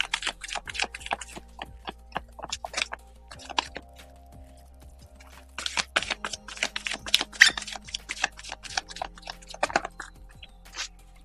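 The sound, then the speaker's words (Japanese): A deck of spiritual message cards is shuffled with many soft, rapid riffles and taps. The bursts are quiet and come in two active stretches separated by a calmer pause. “カードをシャッフルいたします。少々お待ちください。”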